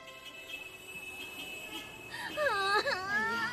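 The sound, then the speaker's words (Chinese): A child cries in high, wavering wails that grow louder and more intense in the second half, with talk faintly present underneath. “行了行了，别哭了。”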